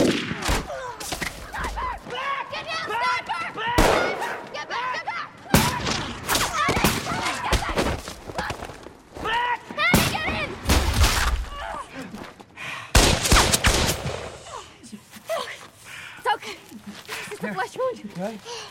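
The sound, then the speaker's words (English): Sniper rifle gunfire on a darkened street: a few sharp, loud cracks and thuds break through almost constant talking voices. “They run down a darkened street, and a sniper picks one of them off.”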